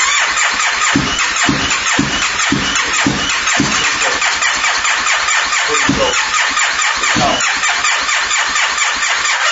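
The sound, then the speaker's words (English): An engine is started with a turn of the key, the starter cranking in loud, steady, rhythmic pulses that run through the whole stretch with no voices over it. “Well, I guess we could try it again. It has sat for a little bit. Let's see, turn the key, See if it goes.”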